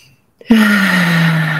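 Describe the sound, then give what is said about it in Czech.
A loud, voiced exhale through the mouth during a relaxation exercise. After a moment of silence, a sustained, moaning breath begins abruptly and holds a low, slowly sinking tone to the end. “zvučný hlasitý výdech ústy a naposledy nádech nosem.”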